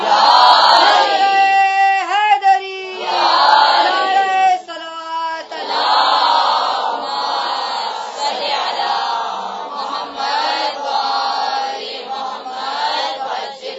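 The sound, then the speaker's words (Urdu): A large crowd shouts the religious slogan Naara-e-Haidri in unison after a speaker's call, loud chanted voices surging in several forceful bursts before continuing as a sustained roar of many voices. “نعرہ حیدری,”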